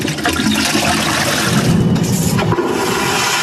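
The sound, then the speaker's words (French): Toilet flush sending about nine litres of drinking water down the pipes, a loud continuous rush of gushing water filling the whole few seconds without a break. “Une habitude du quotidien qui cache pourtant une consommation d'eau loin d'être anodine. À chaque chasse, ce sont en moyenne 9 litres d'eau potable qui disparaissent dans les canalisations.”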